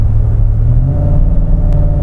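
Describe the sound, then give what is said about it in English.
A gas car engine holds speed in fifth gear while climbing a small rise and losing speed, giving a loud, steady low rumble with a faint hum above it and no clear change in pitch. “So I'm able to kind of maintain speed in fifth gear. As soon as I hit a little rise, I'm losing speed.”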